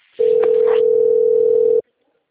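Ringing tone heard on a telephone call, one long steady mid-pitched beep of about a second and a half that starts and stops cleanly, followed by silence.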